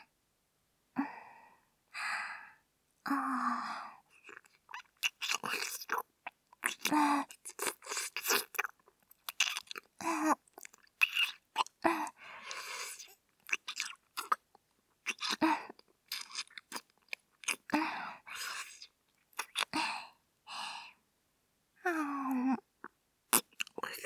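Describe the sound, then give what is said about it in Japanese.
Wet licking and mouth sounds on skin as the sweat is licked off an arm, with many short moist bursts separated by brief pauses and soft sighing breaths, no talking. “私が舐めてきれいにしますので、仰向けになってください。”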